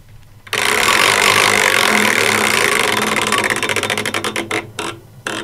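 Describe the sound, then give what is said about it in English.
A prize wheel spins with a loud, rapid whirring rattle of clicks that gradually slow into separate, spaced ticks before it comes to rest. No voices are heard. “I think it's time for a spin of the Wheel of Musical Destiny. Okay, here we go.”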